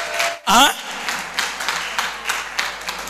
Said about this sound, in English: Give the Lord a clap, don't look at me like that.